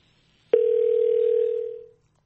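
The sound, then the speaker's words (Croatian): Telephone dial tone after a dropped call: a single steady low tone that starts abruptly, holds for about a second and a half, then fades out, alone with no talk. “mutwihanganire umutumirwa wacu telefoni ye igomba kuba icitse turongera tumuhamagare”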